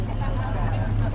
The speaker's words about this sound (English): It's the sound of a new boat arriving.